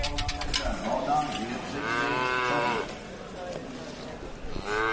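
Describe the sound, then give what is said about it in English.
Calves moo at Kilmallock Mart livestock market in County Limerick, several drawn-out, wavering bellows overlapping one another against a busy background of voices and bustle. “Lots of excitement, as you can hear, at Kilmallock Mart in County Limerick today. And I've just stepped inside to the calf area that was mentioned there. A lot of calves getting ready before they're being sold.”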